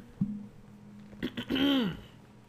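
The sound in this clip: Throat clearing to get rid of phlegm: a short rough catch, then two quick bursts and a longer voiced, rasping rumble that rises and falls in pitch. The sound is moderately loud and heard alone.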